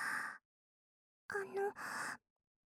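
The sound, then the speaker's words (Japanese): Soft puffs of blown breath in an ear-cleaning roleplay: a few short, airy bursts of air, faint and close, with a brief voiced sound between the later puffs. “じゃあ次は息をふうふうってしてみて。 ふうふう？うん、わかった。”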